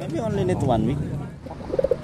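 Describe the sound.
Racing pigeon cooing as it is taken from a wooden cage: soft, low, throaty coos in a quick burst near the end, with talking over the first part.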